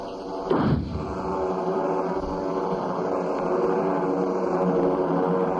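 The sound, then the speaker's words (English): A flare gun fires once with a sharp pop and a quick whoosh that sweeps steeply downward in pitch. A dense, steady roar continues underneath for several seconds afterward. “Murray, throw me that flare gun. Yes. Here goes.”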